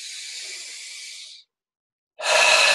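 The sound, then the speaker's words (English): Slow, deep breathing during a guided breathing exercise, drawn in through the nose and released. Two long, airy hissing breaths are separated by a brief silent pause, the second starting louder. “Breathe in the nose. Let it go. Breathe in. Let it go.”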